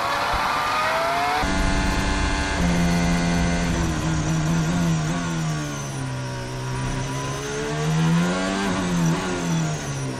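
Ferrari Formula One car engine howls loudly at the British Grand Prix at Silverstone, a continuous high-pitched race engine whose pitch drops sharply at gear changes and then swings up and down through the corners, with no voices.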